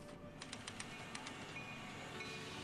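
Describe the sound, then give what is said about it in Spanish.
Low, steady rumble of a train pulling into the station at Fajardo, with a short run of light clicks early on. The whole sound stays faint and continuous. “Los pasajeros descienden del tren que recién llega a la estación de Fajardo.”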